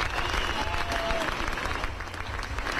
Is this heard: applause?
yes